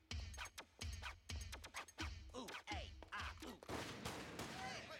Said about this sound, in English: It's blowing off a shotgun. Oh my God, that's great. See, that ping sound means the spit was on target.